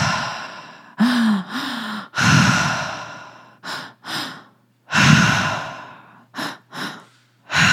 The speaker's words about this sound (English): So we are going to be taking two inhales through the mouth, that is belly, and then the chest, and then exhale out the mouth. So belly, chest, exhale.